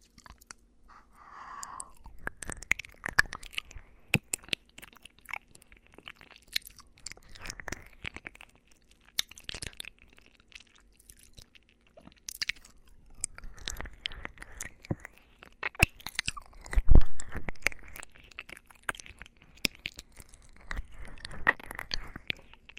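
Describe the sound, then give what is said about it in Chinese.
Close, steady chewing and biting of food: many small crunches and wet, squishy mouth sounds in an irregular rhythm, mostly quiet with occasional louder bites. “我要吃了。”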